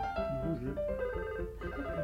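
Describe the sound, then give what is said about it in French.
A phone ringtone plays a short electronic melody of steady, bright tones that change pitch from note to note and hold at an even loudness for about two seconds. “C'est votre téléphone qui sonne ?”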